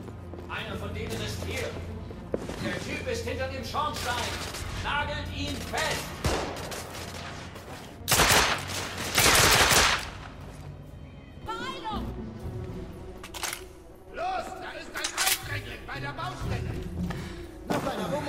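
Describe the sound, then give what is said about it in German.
Dense gunfire from a video game shootout with guards and a sniper: loud, layered bursts of shots and impacts, with the heaviest volley in the middle, over constant action noise. “Von Deckung zu Deckung hechtend schoss er auf angreifende Wachen und kam dem Scharfschützen immer näher.”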